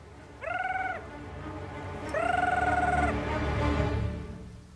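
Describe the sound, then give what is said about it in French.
A man's voice imitates the call of a gyrfalcon with two drawn-out, whistling cries, the second longer than the first, over a low background rumble. “C'est quoi ça? Un gerfaut des plaines, je crois.”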